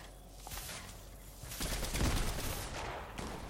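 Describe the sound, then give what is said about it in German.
Video game gunfire during a multiplayer match on a public map: a fairly faint, dense crackle of rapid shots that swells in the middle, with no voices. “Oh, der schießt runter, glaube ich, oder?”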